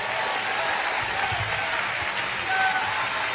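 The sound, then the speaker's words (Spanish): An audience applauds loudly during a church worship service, a dense, steady wash of clapping that holds at an even level from start to finish, swelling slightly near the end. “desocupe las manos y dele un aplauso fuerte, glorificando al Señor.”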